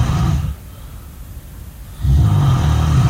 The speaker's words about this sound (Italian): non sono io che sto russando, vero? Non mi hai registrato di nascosto.